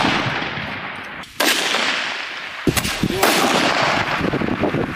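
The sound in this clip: Sniper rifles fire during a training assessment with shooters on rooftops, utility poles and field positions: a few sharp, loud cracks at irregular intervals stand out over constant background rumble and noise.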